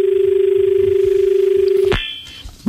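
A telephone rings for an incoming call on a farming phone-in line. A single steady, mid-pitched, warbling ring sounds continuously for about two seconds, then cuts off sharply into near quiet.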